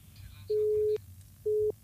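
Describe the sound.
A telephone busy tone follows a cut-off call: two steady mid-pitched beeps, the first longer than the second, over faint background noise.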